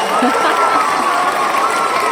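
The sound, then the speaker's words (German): A crowd applauds and cheers in a dense, continuous roar of clapping mixed with raised voices. It stays loud and even throughout. “250 Folgen, ich dachte, ein bisschen Applaus braucht es nochmal.”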